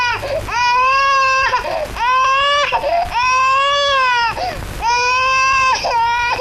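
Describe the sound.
An infant cries loudly in long, high, strained wails, about four of them, with short gasping breaks between.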